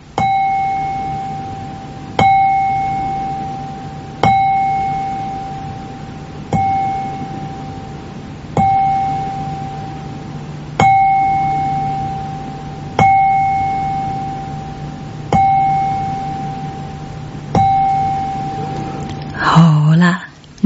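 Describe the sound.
A qing chime bowl is struck nine times at an even pace of about two seconds during a meditation practice, each bright metallic ring sounding clearly and then decaying before the next strike.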